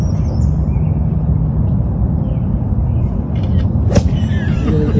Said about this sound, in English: You hear the sound effect, and this is not before. This is, he's in his backswing, and you hear the click of the camera.